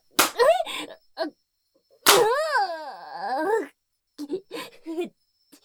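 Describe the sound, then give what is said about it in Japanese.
Hand slaps on someone's buttocks: two sharp smacks, each followed by a drawn-out, wavering vocal cry, then a few shorter voiced sounds. “分かった、悪かった、謝るから、ケツ叩くのやめろっての。”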